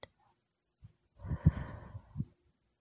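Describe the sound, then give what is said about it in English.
A person slowly breathing out during a guided breathing exercise: one drawn-out, breathy exhale lasting about a second, with a brief faint puff of breath just before it. “And breathe out.”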